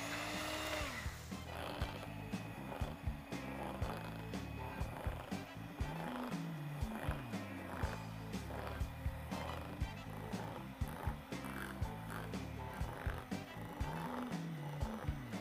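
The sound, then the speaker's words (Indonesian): An electric mixer whirs through a batter of mixed ingredients, to be piped and fried on a Teflon pan. The faint, steady mechanical buzz carries many small rhythmic clicks and rattles throughout. “semua bahan baru dicampur di sini. Sekarang kita langsung aja mixer.”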